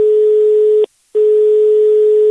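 A telephone tone signals an incoming call from a neighbour. It is a loud, steady, low-pitched electronic tone, broken once by a short silent pause, and is heard alone.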